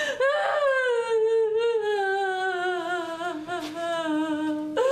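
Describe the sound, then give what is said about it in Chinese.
A person crying in a drawn-out, tremulous wail that slides steadily downward in pitch over several seconds, with a brief break near the end. “你先不要哭，你先不要哭好不好？”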